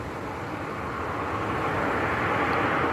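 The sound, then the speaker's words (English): Steady, broad roar of an aircraft engine in footage of a plane crash in which the aircraft struck a car carrying a family of four. The rumbling noise swells slightly louder toward the end. “the aircraft ended up hitting a car where a family of four were traveling. A 5-year-old girl, unfortunately, passed away. And let me see if I can share this video of the crash.”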